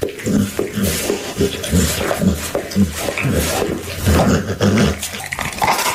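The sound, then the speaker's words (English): A dog growls in a low, rumbling series of pulses that continues throughout without pause, with no talk. “That's my dog, Sophia.”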